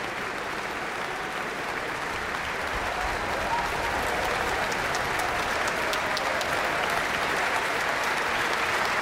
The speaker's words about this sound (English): And Wu Man is back for another bow. The audience is on its feet.